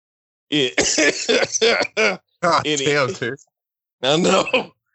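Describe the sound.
Coughing and throat clearing from a tickle in the throat, in a few separate bursts, loud and close, with short pauses between them.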